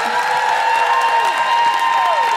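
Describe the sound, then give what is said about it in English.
Audience applause for guests, a continuous, even wash of many hands clapping at steady loudness. “can I just say a big round of applause to Georgia Oakley,”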